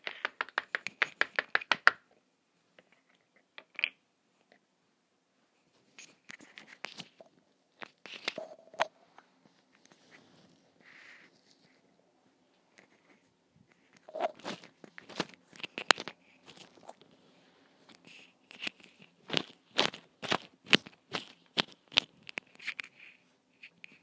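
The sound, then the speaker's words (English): Squelchy store-bought putty squeezed and played with for ASMR, giving dense bursts of crackly, sticky clicks and pops separated by quiet pauses, with no talking. “Yeah, it's this like store-bought putty. You know how that goes. It's like not good. It's just this squelchy stuff and it makes a nice ASMR. So I'm going to play with it.”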